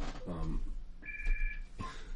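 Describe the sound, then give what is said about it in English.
Telephone ringing in a radio studio: a single short electronic ring tone sounding briefly amid low background noise. “Now I got the phones going off in my studio.”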